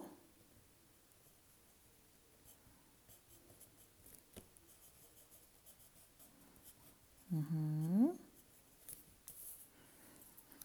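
A pen writes a name on a worksheet: faint, intermittent scratchy strokes spread over about ten seconds.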